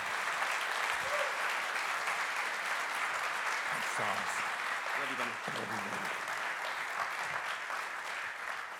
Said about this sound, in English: come on, let's do our very, very best. Put your hands together. Extend a very warm welcome to Pastor Richard Hinojosa.